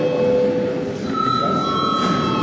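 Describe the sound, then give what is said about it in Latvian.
Electric bell ringing steadily in a parliament chamber to call a break, a continuous, fairly loud tone that holds for the whole clip without pausing. “Godātie kolēģi, laiks pārtraukumam, lūdzu zvanu”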